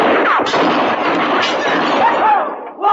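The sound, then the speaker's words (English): Gunshots fired by Texas cowboys, a loud, rapid volley of overlapping reports that blends into a continuous crackle and drops off briefly just before the end. “Oh, them Texas boys. They sure do love to shoot off them things.”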